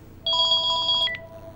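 A telephone rings for an incoming call: a single loud electronic ring burst of rapidly pulsing, warbling tones lasting under a second, then cutting off, with no voice.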